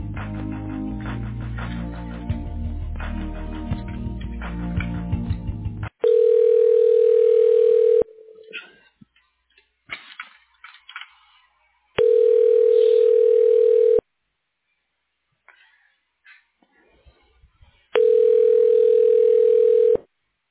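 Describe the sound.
Ringback tone on a telephone line while a call is transferred to voicemail: after a few seconds of music, three long, steady, mid-pitched rings sound, each about two seconds, separated by longer silent gaps.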